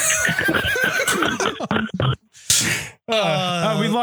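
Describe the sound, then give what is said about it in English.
A horse neighing loudly: a burst of rough, harsh whinnying, a brief near-silent gap, then a long, wavering high neigh with a strong harmonic ring. “I don't believe that horse may have climaxed.”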